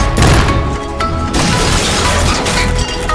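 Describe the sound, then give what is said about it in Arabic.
Bombs are launched and explode in a robot fight, a loud, dense barrage of crashing and smashing impacts that roars almost without pause. “سنطلق قنابل على الطرف الآخر. سنبدأ بإطلاق القنابل.”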